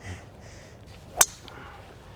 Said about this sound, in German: Ein hervorragender letzter Abschlag bis aufs Fairway. Bisschen zu hoch für Ihre Verhältnisse. Er war zu hoch, fast zu hoch aufgetient.